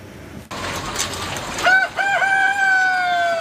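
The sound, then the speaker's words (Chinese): Caged chickens at an egg breeder farm: hens cluck over a steady background, then partway through a rooster crows loudly in a long, drawn-out cry with a brief break. “在石家庄的蛋种鸡养殖场，一台巡检机器人已经上岗，它沿着鸡笼缓缓移动，每经过一笼鸡都要打量一番。”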